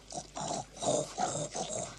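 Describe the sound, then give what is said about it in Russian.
A pig grunts contentedly, giving a run of low, snuffling grunts in quick, uneven rhythm, moderately loud and with no voices. “Ребята пытаются вытащить свинью, но пальцы скользят по боку. Свинья довольно похрюкивает.”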